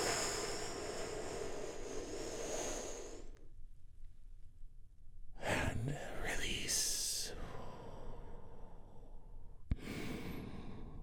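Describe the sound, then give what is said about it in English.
Deep, slow breaths taken together during a guided relaxation, heard as a few long, soft breathy rushes of air separated by quiet pauses, with no talking. “we do that by taking a big, deep, healing breath. All together, here we go.”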